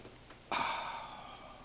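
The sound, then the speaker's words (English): A deep inhale drawn in while the hands are raised during a yoga stretch: one airy breath begins abruptly and holds steady to the end, with no voices. “Inhale and raise your hands up.”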